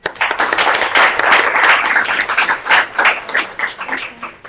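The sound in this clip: Sustained applause from an audience welcoming the first speaker to the podium at an evening talk on agricultural land grabs, a dense, loud wash of clapping that holds steady throughout with no voices over it.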